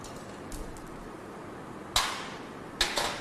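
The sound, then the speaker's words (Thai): The last hidden screw is removed from a plastic cover, heard as two sharp clicks with brief rattling tails. Faint ticks come before them against a quiet background. “ถอดพลาสติกออกนะครับก็จะเห็นน็อต1ตัวที่ซ่อนอยู่นะครับทำการถอดน็อตฝาครอบตัวสุดท้ายนะครับออก”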